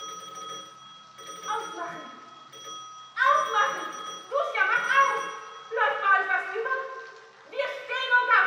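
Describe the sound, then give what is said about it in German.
Doorbells ringing insistently at an apartment during a commotion, many bright, overlapping electric rings in repeated bursts that grow louder and denser after the first few seconds. “in Latunskys Wohnung hub an ein wahres Klingelkonzert. Da klingeln sie.”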